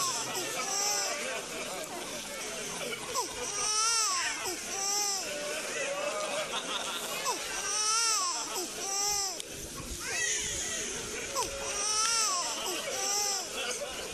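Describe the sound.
A baby cries in loud, repeated wailing bursts that rise and fall in pitch, with short pauses for breath between them and a murmur of voices underneath.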